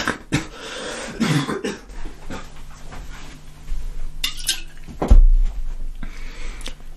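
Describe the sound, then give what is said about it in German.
Coughing from a person talking about resentment: a few harsh bursts, with the loudest near the end, over a background of low noise. “oh sorry, now this cough”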